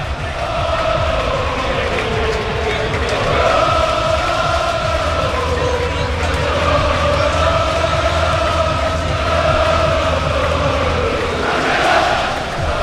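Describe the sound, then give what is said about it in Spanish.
A sold-out crowd of 15,000 football fans at Estadio Castalia minutes before kickoff. Their loud, sustained chanting roar holds steady throughout, with wavering sung tones. “15.000 espectadores en el Skyfy Castalia, que vamos a escucharlo porque suena así a pocos minutos de que empiece el partido.”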